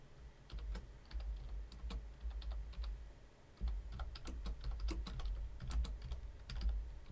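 Typing on a computer keyboard: many quick, irregular key clicks in uneven bursts over a low steady hum, fairly faint, with no talking.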